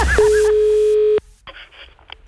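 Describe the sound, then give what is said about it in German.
A telephone line tone sounds as a radio call is placed: one steady, unbroken mid-pitched tone lasting about a second, cut off abruptly and followed by faint, quiet sounds. “Das Telefon.”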